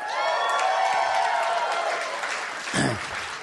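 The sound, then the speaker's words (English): A live audience applauds, with steady clapping that stays even and then eases slightly toward the end, with one brief louder bump near the close. “You were at the Montreal one, sir? Are you just applauding Montreal? Or the poor attendance?”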